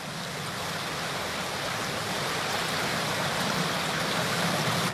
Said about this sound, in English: It has a jagged coastline with many inlets that reach deep inland. The tide sweeps into them with amazing speed and ferocity.